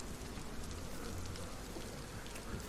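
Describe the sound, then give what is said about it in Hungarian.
Rain falls in a soft, steady patter, an even, faint hiss of drops with no pauses or thunder. “Aha, kezd alább hagyni az eső egyébként.”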